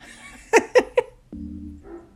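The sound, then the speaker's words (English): A dog next door barks three times in quick, evenly spaced, sharp bursts, followed by a steadier drawn-out tone. No one speaks. “I hope this mic can pick up this dog next door.”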